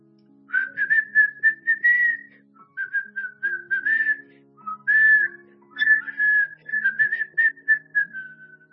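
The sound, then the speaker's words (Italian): A plump man whistles a tune while tidying up a bar. The bright, clear melody comes in many short phrases with brief pauses between them, and no one speaks. “Il padrone del locale, un uomo grassoccio, rassetta lo spazio fischiettando.”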